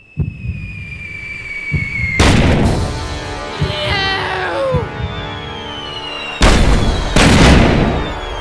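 Dynamite explosions in the Minecraft video game: a few loud, broad booming bursts break through quieter tonal game sounds, the first one alone and then two more close together near the end.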